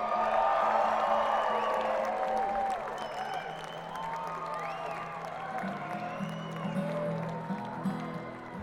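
Audience applause and cheering as a guest musician is welcomed on stage: a sustained, loud wash of clapping with scattered whoops, easing slightly after the first few seconds but continuing to the end.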